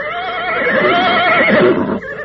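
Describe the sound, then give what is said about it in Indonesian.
A horse neighing: one loud, sustained whinny with a wavering, trembling pitch that lasts about two seconds before breaking off. “Ayo cepat! Naik ke atas kuda masing-masing.”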